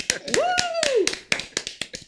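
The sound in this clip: Crowd cheering and clapping after a show finale: a quick run of sharp, separate claps, with one rising-and-falling whooping cheer early on.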